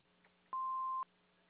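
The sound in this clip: An answering machine beep: one steady, mid-pitched electronic tone about half a second long, sounding alone over a faint low hum.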